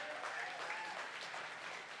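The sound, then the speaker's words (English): A church audience gives a round of applause for the tech, video and music teams: soft, steady clapping from many hands, sustained evenly for about two seconds without speech. “And y'all give a round of applause for all the tech team, video team, and music team.”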